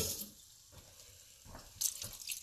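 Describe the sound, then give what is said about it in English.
Water runs from a tap to rinse out an empty can of condensed mushroom soup, a faint, uneven trickle with a few louder splashing bursts. “So I'm going to turn off the heat. I'm going to rinse this condensed mushroom soup.”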